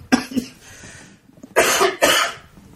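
A person coughing: a few loud, harsh bursts, first a quick pair of short coughs, then after a pause two longer, rougher coughs close together.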